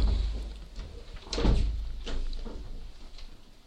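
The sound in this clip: A door being shut, heard as one dull thump near the middle over a low, steady hum.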